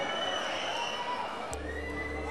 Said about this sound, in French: Eh bien, c'est un maximum de bruit pour vous, s'il vous plaît.